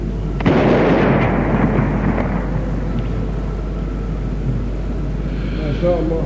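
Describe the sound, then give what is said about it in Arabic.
A cannon blast signalling the start of the Ramadan fast at dawn in Cairo: one heavy, sudden boom followed by a long, low rolling rumble that slowly fades, with a faint voice near the end. “مدفع الإمساك، اضرب.”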